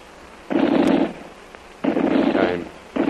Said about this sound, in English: Come to window with lamp. Machine gun start shooting, Tuan.